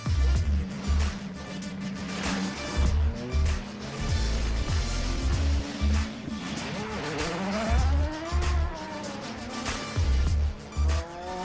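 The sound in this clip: Rental cars race in a video game, with continuous loud engine roar, tire squeals and shifting whining pitch sweeps over repeated heavy low thumps throughout.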